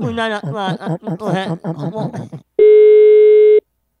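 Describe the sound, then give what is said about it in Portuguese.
A telephone tone sounds after a dropped call. Voices and chuckling come first, then one steady electronic beep lasts about a second before silence. “A ligação caiu, boca de saco!”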